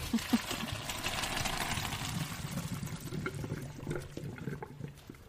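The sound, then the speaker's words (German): Cooked pasta and its water are poured from a pot into a strainer in a home kitchen, making a steady, fairly loud rush of splashing liquid that runs for the whole clip. “Haben wir sowas zum Abgießen? Ja. Ja. Perfekt. Okay, es sind wirklich sehr, sehr viele Nudeln.”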